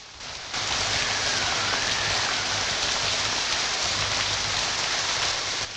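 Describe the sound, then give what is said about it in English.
Torrential rain pours down steadily in a dense, loud hiss of falling water that starts abruptly and holds without a break, with a faint low hum underneath. “In the torrential rain and confusion, Ronald”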